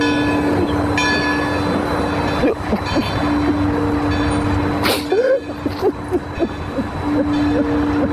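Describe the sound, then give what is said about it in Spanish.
A train brakes: a steady, piercing metallic squeal holds over dense rumbling noise, broken by short wavering screeches and a sharp burst toward the end. “El tren frena a centímetros de Fontán.”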